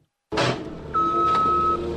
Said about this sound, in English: At the Madison County landfill, a skid steer loader collects bunches of plastic bags.